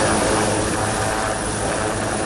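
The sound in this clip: Steady loud rotor and engine roar of military helicopters during a naval amphibious assault exercise on an island, a dense continuous wash with no clear beat, unbroken for the whole stretch and with no voices.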